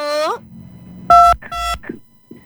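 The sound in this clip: A telephone call-in line from Samarinda is being dialed and connected, with two short, clear electronic beeps in quick succession after a brief voice, followed by faint fragments of talk.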